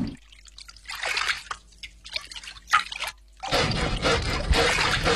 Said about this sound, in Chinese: 将上好的五花肉用火烧皮，皮逐渐被烤得焦黑，立刻用清水冲洗。